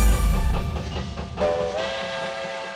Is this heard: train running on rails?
yes

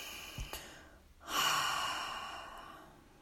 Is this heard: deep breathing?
yes

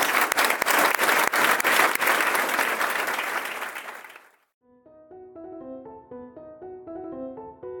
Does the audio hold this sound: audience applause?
yes

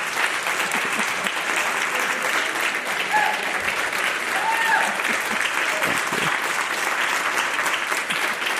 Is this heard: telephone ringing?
no

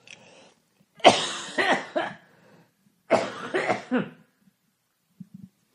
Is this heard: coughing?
yes

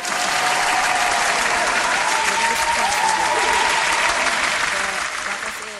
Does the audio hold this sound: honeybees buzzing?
no

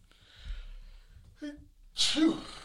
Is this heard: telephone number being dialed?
no

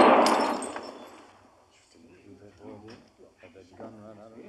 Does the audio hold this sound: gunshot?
yes

